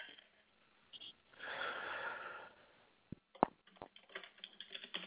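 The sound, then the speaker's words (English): A silent caller breathes into the phone: one long, breathy exhale over a narrow phone line, then a few sharp clicks and soft rustles. “Girl, don't breathe in if you ain't going to say nothing.”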